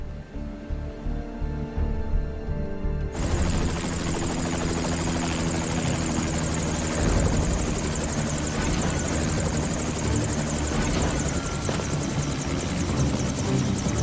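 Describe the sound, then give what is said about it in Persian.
A Saber Hawk helicopter landing: a loud, sustained roar of rotor and engine that surges in after about three seconds and stays steady and heavy to the end. “قربان، سابر هاک فرود اومد.”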